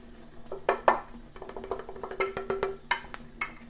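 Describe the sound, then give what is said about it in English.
A plate is washed in a very hot sink: dishes clink and knock in a quick irregular series of sharp, bright taps, with soft watery movement between them. “Plate. Now a clean plate. What else is left in this very hot sink? Teaspoon.”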